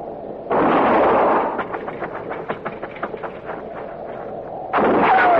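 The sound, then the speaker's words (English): Gunshots in a shootout near a thicket: two loud, sustained blasts frame a long run of many quick, sharp cracks, with no talking. “I'm going to fire and roll away, maybe draw a shot.”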